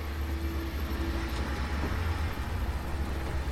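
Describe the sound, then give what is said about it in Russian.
A jeep creeps slowly downhill between the trees of a forest, its engine giving a steady low rumble that holds constant throughout with no voices. “Фары джипа освещают участок леса. Машина медленно двигается под уклон между деревьями.”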